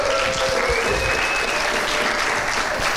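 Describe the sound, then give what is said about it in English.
Congregation applauding to welcome a pastor at a church service, a steady, dense round of clapping from many people at an even level. “Guys, give Pastor Mark a warm welcome.”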